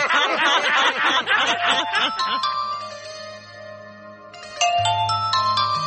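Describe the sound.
Telephone ringing as a melodic electronic ringtone with repeating bright tones, entering after a couple of seconds of chuckling voices and continuing loudly to the end.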